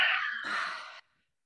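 A deep breath drawn and let out, a soft breathy rush lasting about a second that shifts in tone midway, heard alone with no voices.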